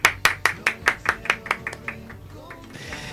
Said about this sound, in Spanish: Vamos a darles un aplauso enorme.